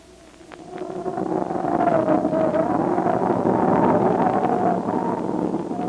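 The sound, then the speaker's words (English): Wind of a snowstorm in the mountains: a broad rushing roar swells over the first two seconds and then stays loud and steady, with a faint humming tone running beneath it. “Well, snowstorm in the Kunlun Mountains doesn't strike me as a picnic.”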